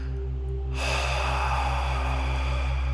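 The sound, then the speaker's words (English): An audible 'ha' breath exhaled during a meditation exercise: a long, breathy hiss that begins abruptly and continues steadily to the end over a constant low humming drone. “We will begin with 5 ha breaths. Breathe in, and when you breathe out, make a”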